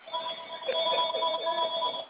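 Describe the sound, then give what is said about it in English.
A doctor's telephone rings with a steady electronic trill. It sounds narrow and tinny and carries on evenly through the whole clip. “Oh, it seems Dr. T had a phone call.”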